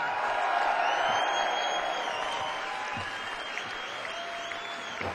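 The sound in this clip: An audience applauds to welcome guitarist and multi-instrumentalist Justin Adams. The clapping is steady and dense, with a few cheers and whoops, and it eases off slightly toward the end.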